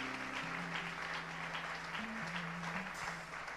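Applause from a church audience: dense, steady clapping that carries through the whole stretch, with held low musical tones sounding underneath.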